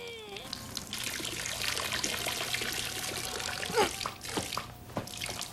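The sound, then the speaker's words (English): A man's stream of urine splashes into a fountain basin in place of its missing water jet. The steady, hissing trickle falters briefly near the end as he strains to keep the flow going. “then takes a pee himself to replace the missing jet of water. He starts to run dry and has to strain to keep up the flow.”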